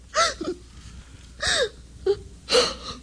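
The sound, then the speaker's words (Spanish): A woman cries and sobs in a few wavering, high-pitched wails broken by short gasping breaths and whimpers, spaced out with pauses between them. “Pero no llores ahora que no puedo compadecerte.”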